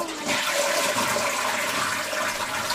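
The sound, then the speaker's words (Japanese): An automatic toilet flushes with a steady, loud rush of water that runs evenly from start to finish without pause. “うち、自動で水流れるトイレ。”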